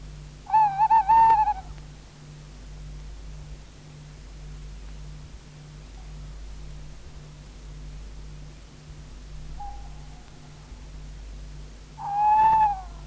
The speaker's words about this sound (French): La nuit est noire. Une chouette se fait entendre.